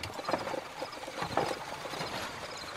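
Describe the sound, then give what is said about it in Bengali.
Horse hooves clip-clop as a carriage is reined in and drawn to a stop before a large garden at a villa: a few soft, uneven hoof knocks over steady background noise. “ঘোড়ার লাগামে দিল এক টান। আমাদের carriage এসে থামল একটি বড় বাগানের সামনে।”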